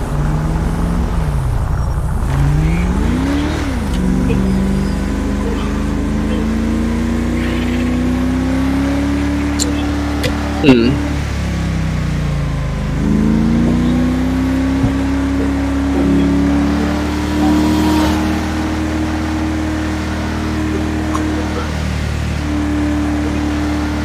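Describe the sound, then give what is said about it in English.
Engine of a police Ford Crown Victoria driven in a video game: a steady droning motor with several rising revs as it accelerates and shifts, plus occasional short knocks over the continuous rumble. “Is that Blaine County or is that... Yeah, that's Blaine County. It's blue. He's driving a Vic. He must be a cadet because he's driving a Vic.”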